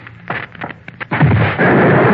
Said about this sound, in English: Things exploded.